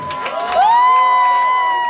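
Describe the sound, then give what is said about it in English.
A crowd cheers for a young girl after her turn on show, a loud continuous roar of voices with one sustained whoop that rises and then holds steady. “So we're cheering on your baby right now.”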